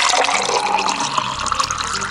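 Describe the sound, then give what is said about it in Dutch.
Beaujolais primeur wine being poured: a loud, continuous splashing gush of liquid that runs steadily without a break. “Een Beaujolais primeur is ook een primeur. Zal ik eens lekker inschenken, lieve mensen?”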